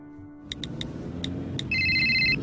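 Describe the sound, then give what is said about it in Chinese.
A mobile phone text message alert in a staged scene about a driver using a phone: a few sharp, evenly spaced ticks, then a steady bright electronic chime holding over a low background hum. “喂，啱啱传紧个短信俾你”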